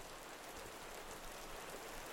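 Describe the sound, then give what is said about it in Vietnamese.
Steady, dense rain hisses evenly throughout a heavy downpour in a rainy season, with no voices and no distinct drops standing out from the constant wash. “Mưa gì mà năm nay mưa dữ thần vậy không biết. Mưa ít ít thôi ông trời ơi, để bà con còn làm ăn.”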